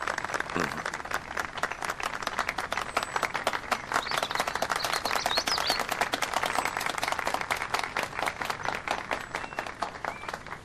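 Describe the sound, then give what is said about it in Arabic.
An audience applauds at a formal gathering, with many distinct claps in a quick, steady patter that stays fairly faint and even throughout. “تصفيق رجاء.”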